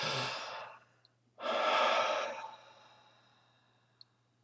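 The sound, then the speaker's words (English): Slow, deep breaths during a guided meditation: two long airy breaths, the second louder and fuller, separated by a short pause, over a faint steady low hum. “So begin to breathe. Just take a deep breath.”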